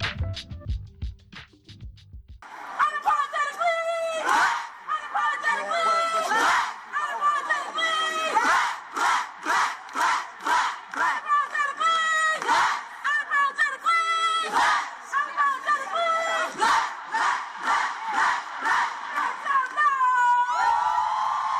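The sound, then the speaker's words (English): Over 100 Black people chanting at the first national convening of Black Youth Project 100 in downtown Raleigh, North Carolina: loud massed voices in rhythmic, repeated phrases with short gaps between lines, beginning after a brief quieter opening. “That is the sound of over 100 Black people chanting in downtown Raleigh, North Carolina, for the first national convening of the Black Youth Project 100.”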